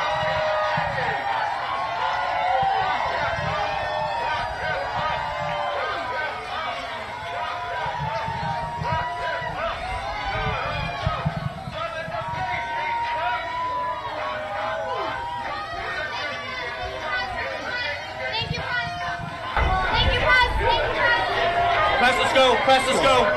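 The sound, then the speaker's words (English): A hostile crowd chants and shouts at Donald Trump as he is hurried inside an event, a dense, continuous din of massed voices with whoops and cheers rising toward the end. “So they hurry him inside amid hostile chants of lock him up.”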